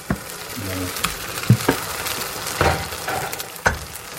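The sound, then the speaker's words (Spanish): Egg mixture for a tortilla sizzles in hot oil in a frying pan after being poured in. The steady crackling hiss is broken by a few sharp knocks. “como ya tenemos el aceite caliente y está bien extendido, vamos a echarle la mezcla.”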